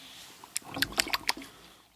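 Beer is poured from the bottom of a can in a bottom pour. Faint, wet glugging and fizzy crackles cluster in a short burst in the middle, then fade.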